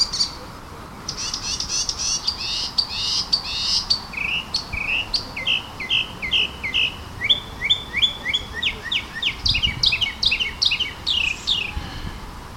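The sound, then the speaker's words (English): A chorus of birds sings in a tree, a busy run of many quick, high chirps and trills that grows denser and more rhythmic as it goes on. “I'm standing under a tree because I heard this incredible chorus of birds.”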